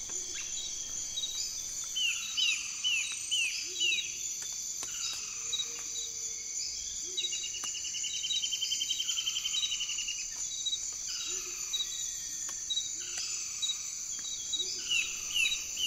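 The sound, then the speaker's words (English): Amazon rainforest ambience: a dense, steady, high-pitched drone of insects runs throughout, with repeated bird calls and chirps recurring every few seconds above it. “I've noticed that the tropics are very loud. If we listen to the Amazon, for example.”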